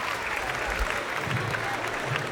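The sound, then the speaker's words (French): Audience applause at a live music show as the next performer is announced on stage: a dense, steady wash of clapping that holds at an even level throughout. “Et avec moi, ici, s'il vous plaît, applaudissements.”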